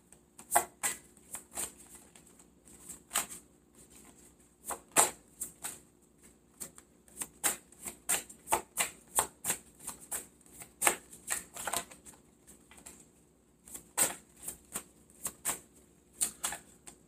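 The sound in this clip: Tarot cards are shuffled and drawn in many quick, sharp snaps and flutters. The bursts come irregularly and fairly quietly, with no talk.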